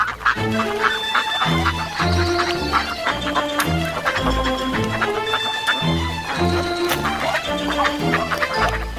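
Honking, clucking calls of a goose, loud and continuous, repeating in a steady rhythm over a dense, sustained layered background.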